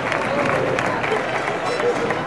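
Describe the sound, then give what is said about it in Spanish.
Crowd applause outside a parish church as a Holy Week brotherhood procession of the Last Supper emerges, a dense, continuous wash of clapping with a voice talking over it. “Y ahora sí, escuchamos ese aplauso”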